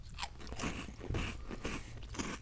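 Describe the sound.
Crisp crunching and chewing of a corn flour snack, close and fairly quiet, with a steady run of crackly bites and grinding chews over a couple of seconds, no talk.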